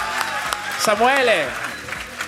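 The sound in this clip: Audience applause at a live stage show, steady clapping that runs under a loud voice speaking over the crowd.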